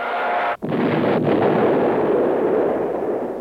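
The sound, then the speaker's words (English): A bomb dropping and exploding, a sound-effect gag in a sitcom scene, comes as one loud, sustained blast with a brief dropout near the start, then a broad rumbling roar that slowly fades. “we hear the sound of a bomb being dropped. And as it explodes on the soundtrack, all the other kids flinch.”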